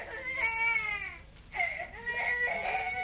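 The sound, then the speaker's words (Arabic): The neighbours' child is crying in drawn-out, high, wavering wails, two bursts of sobbing split by a brief break, faint and steady throughout. “مش هنخلص ابدا من عياط ابن الجيران ده.”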